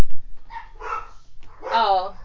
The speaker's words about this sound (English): dogs here. Are very much barking